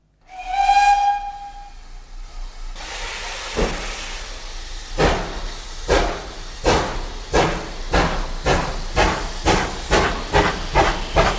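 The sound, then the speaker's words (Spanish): A steam train departs: a short steam whistle sounds first, then steady hissing steam gives way to rhythmic chuffs that grow gradually quicker and more regular. “nos vamos para la locomotora, para el primer vagón, que el tren va a pitar su salida y no queremos quedarnos en tierra.”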